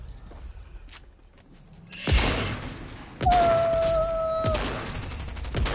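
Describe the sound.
Gunfire in the video game Fortnite: a few loud, sharp bursts of shots at separate moments, with a thin whining tone running between two of them.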